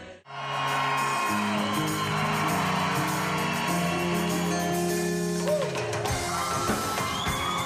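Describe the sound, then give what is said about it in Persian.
Concert audience cheering and whooping as a favourite performer walks on stage, loud crowd voices rising over sustained, held musical tones that start abruptly and carry on beneath the cheering. “لحظه وعده شده پس از انتظار طولانی فرا می رسد و تماشاگران از هنرمند محبوبشان در روی استیج استقبال می کنند.”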